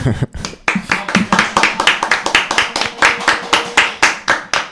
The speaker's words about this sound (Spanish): Andan pidiendo un aplauso por ahí